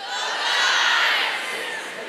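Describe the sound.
A crowd of guys cheering back at a group of girls on a count of three: a loud, massed shout and whoop that swells quickly, peaks, then tapers off slightly, with no clear words.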